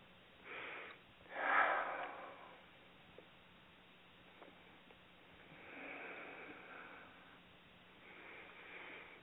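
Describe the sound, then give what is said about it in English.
A person takes a few slow, deep breaths, faint inhales and exhales separated by long quiet pauses, with one breath near the start noticeably stronger than the rest. “Let me take a couple breaths here and get in the trance a little bit.”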